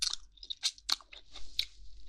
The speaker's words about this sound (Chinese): 让我吃一口，好腻啊！